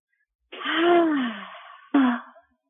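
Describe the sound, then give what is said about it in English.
Two deep breaths from a guided breathing exercise: a long, breathy breath carries a soft voiced sighing tone that falls in pitch, and a shorter, sharper breath follows after a brief pause. “take a deep breath, inhale and exhale.”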